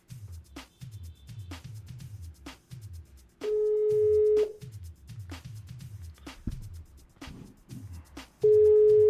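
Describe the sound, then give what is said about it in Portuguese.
Ringback tone of an outgoing phone call: two long, steady, mid-pitched tones, the second cut off at the end, over a soft, evenly repeating thumping beat. “Vou ligar aqui para o homem.”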